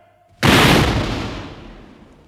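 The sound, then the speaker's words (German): A firing squad of French soldiers fires a rifle volley at a condemned man by an execution stake. One sudden loud crack rings out together, then a long rumbling roar fades away over about two seconds. “Plötzlich ertönte ein Krachen und Dröhnen, das Pierre lauter erschien als der furchtbarste Donner.”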